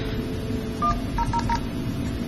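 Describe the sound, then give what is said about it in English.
Telephone keypad dialing tones while calling into an Asterisk phone server: four short beeps, a single tone followed by a quick run of three, over a steady background hum. “I'm just going to dial into the asterisk server and let it play the voice prompts for that side of the connection.”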